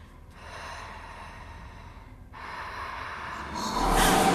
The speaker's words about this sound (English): Looking petrified and breathing rapidly, Miranda steps back towards her bunk.